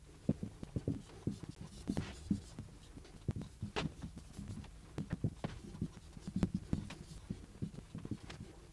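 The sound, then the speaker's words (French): A teacher writes four sentences by hand for a French grammar exercise, making faint, irregular taps and scratches in quick clusters with pauses between. No one speaks. “Je vais écrire quatre phrases.”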